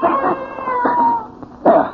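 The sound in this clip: A cat yowls in drawn-out, wavering harmonic cries, loud and strained, with a few separate yowls and a sharper, louder wail near the end.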